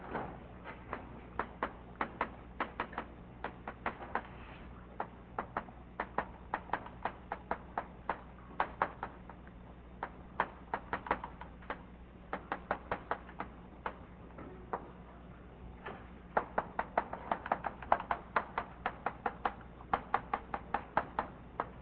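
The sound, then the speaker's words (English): A lecture title is handwritten on a board: many sharp taps and short scratches in an irregular, busy rhythm that carries on throughout, fairly quiet overall. “What I'm going to talk about today, I'll just write down the title.”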